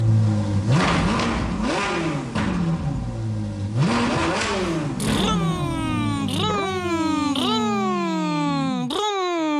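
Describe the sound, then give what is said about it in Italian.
Voices, including a child's, imitate a bus engine revving in a children's song. Many vroom sweeps rise and fall in pitch in a repeating pattern, growing stronger and more tonal toward the end. “come fa The Motor on the Bus, il motore del bus?”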